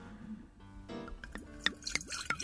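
Liquid pouring into a glass for a toast: a run of gurgling, glugging splashes, each a quick resonant sweep in pitch, irregular and fairly soft, with no talking.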